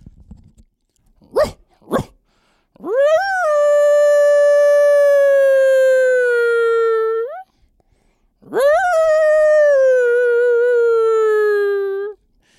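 Two long coyote-style howls, each rising quickly and then holding a clear, slowly falling tone for several seconds. Two short sharp sounds come before them.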